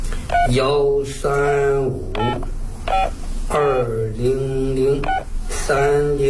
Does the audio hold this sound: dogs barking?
no

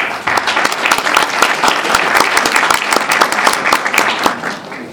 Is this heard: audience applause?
yes

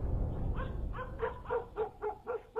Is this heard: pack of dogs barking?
yes

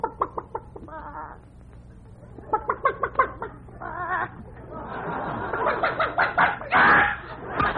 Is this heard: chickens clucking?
yes

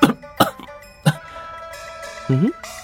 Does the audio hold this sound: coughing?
yes

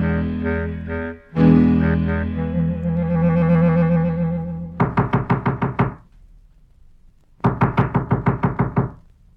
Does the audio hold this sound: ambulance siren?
no

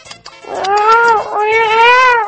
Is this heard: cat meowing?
yes

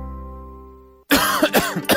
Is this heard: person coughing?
yes

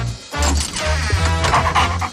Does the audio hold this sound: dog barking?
yes

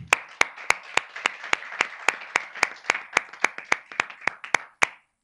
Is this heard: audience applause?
yes

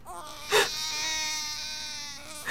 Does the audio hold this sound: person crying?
yes

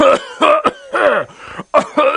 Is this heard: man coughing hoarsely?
yes

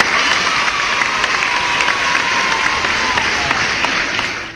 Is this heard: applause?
yes

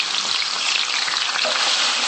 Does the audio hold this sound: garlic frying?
yes

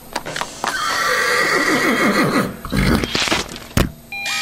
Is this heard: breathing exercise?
no

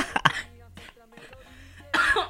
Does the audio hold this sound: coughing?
yes

